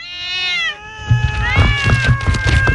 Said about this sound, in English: I will throw these little cats in a well if no one calls.